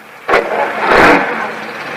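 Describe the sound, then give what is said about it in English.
A workman's car engine starting and driving off, a short sharp burst followed by a louder rough rumble that swells and then settles into a steadier hum. “The last of the workmen leaves in his car.”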